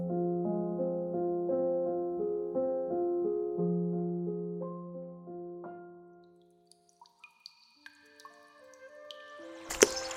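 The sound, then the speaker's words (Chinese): Water drips onto a windowsill in a series of small, sharp plinks after soft melodic music fades out, the drops falling at an irregular pace and growing slightly louder toward the end. “滴落在窗台，一滴又一滴，梦回少年时。”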